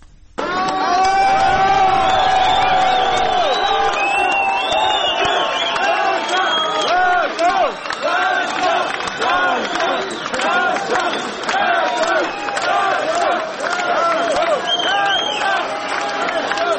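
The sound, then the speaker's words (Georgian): Fans cheer loudly for Georgian Olympians arriving at Tbilisi airport at night, a dense crowd roar of shouts and whoops that holds steady from start to finish, with cries rising above the mass of voices. “თბილისის აეროპორტში ქართველ ოლიმპიელებს გულშემატკივრები ოვაციებით და ხმაურით დახვდნენ.”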